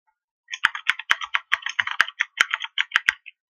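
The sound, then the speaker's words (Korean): Keys clatter on a computer keyboard in a quick burst of many light taps, with a few sharper, louder clacks mixed into the irregular rhythm and no voices. “엔티티 프레임워크라고 타이핑하시면, 엔티티 프레임워크 뉴겟 패키지가 제일 상위에 나타나게 됩니다.”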